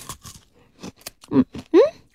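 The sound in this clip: Crunchy biting and chewing as someone eats something cold from the middle instead of the usual way, with a few sharp, loud crunches spaced unevenly between quieter chewing.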